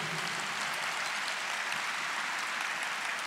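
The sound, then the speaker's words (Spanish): Church audience applauding in praise to the Lord, a faint, even wash of many clapping hands that stays steady from start to end. “¿Cuántos le pueden dar un aplauso al Señor?”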